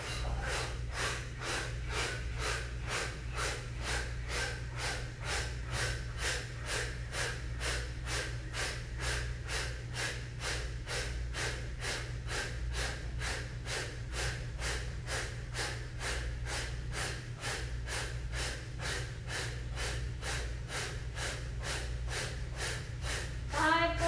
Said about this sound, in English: Find a forceful exhale through the mouth. Inhale, breathe in through the nose.